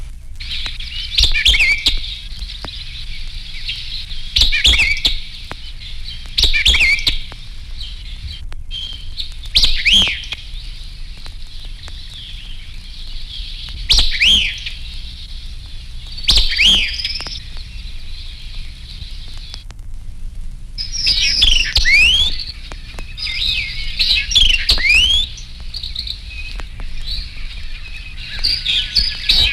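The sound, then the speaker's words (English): White-eyed vireo singing rapid, emphatic, staccato phrases. Many bright, high bursts repeat every few seconds over a faint, low background hum. “The white-eyed vireo is partial to woodlands with brushy thickets. His notes are rapid, emphatic, and staccato.”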